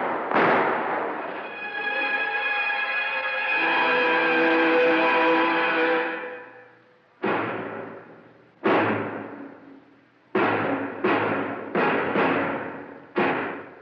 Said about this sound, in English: And so in the darkness, the shots rang out.